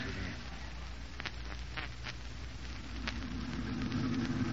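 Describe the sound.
A car engine runs during a drive, a low, continuous rumble with steady hiss and a few faint clicks.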